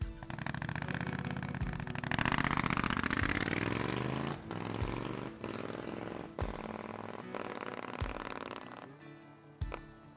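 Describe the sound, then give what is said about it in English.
Triumph Scrambler 900 motorcycle engine running, a loud rumbling exhaust that revs up with a rising pitch early on, then holds a steady throaty drone with a few sharp blips and dips near the end, no talk. “I ride a black Triumph Scrambler 900. Here's how it sounds.”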